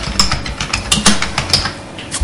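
Computer keyboard keys clacking as a search is typed, a quick, uneven run of sharp clicks and taps with no voices.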